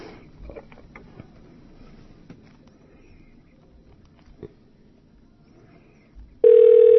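A telephone ringing on a call-in line: a loud, steady electronic ring tone cuts in abruptly near the end, after several seconds of faint low background noise.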